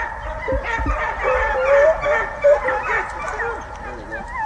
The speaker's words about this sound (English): The barking, that's what it's all about. The hunters call it giving mouth.